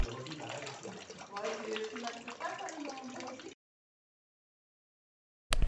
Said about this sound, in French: J'ai choisi le bruit de l'eau qui coule, car c'est le bruit le plus représentatif des termes.